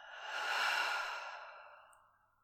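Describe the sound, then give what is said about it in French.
A single deep, slow breath during a guided breathing exercise, in through the nose and out through the mouth: an airy, breathy rush that swells, then gradually fades out, alone and fairly soft. “Par les deux narines, allons-y, inspirez profondément. Par la bouche, expirez profondément.”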